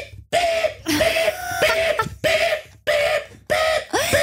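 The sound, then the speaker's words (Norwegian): A voice imitates a large construction truck unloading, making a series of loud, harsh, noisy bursts, each breaking off abruptly before the next begins. “der sto det da en voldsom anleggsbil som drev å losse av, ikke sant? Du kjenner, ja. Kjenner til dette her, Petter. Ja. Og akkurat i det jeg på en måte kommer ut, så setter den i gang med avlossingen, og det er bare sånn...”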